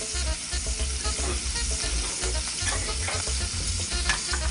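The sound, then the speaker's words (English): Shrimp fry in a skillet with a loud, steady sizzle and dense crackling and popping. Stirring noises run throughout, and no voices are heard. “So I already dropped my pasta. So we're gonna cook our shrimp about halfway and then we're gonna build our sauce from that.”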